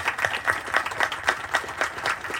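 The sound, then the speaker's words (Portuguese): An audience claps for the users of a CAPS community mental health centre at a public event. The clapping is fairly soft and falls into a steady rhythm of even beats, about four per second, without pause. “Queria pedir a todos presentes aqui uma salva de palmas para os usuários do CAPS.”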